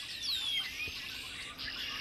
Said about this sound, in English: I was out for my morning walk, and I came around a curve in the trail. About 50 red-winged blackbirds in the branches of a bare tree 20 feet above my head. The choir had assembled,